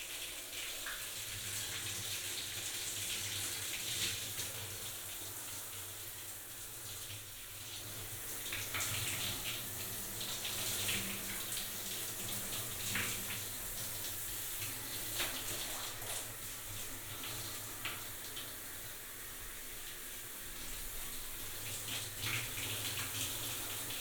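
Water runs steadily to rinse a patient during bathing care, a continuous splashing flow that barely changes for about twenty-four seconds.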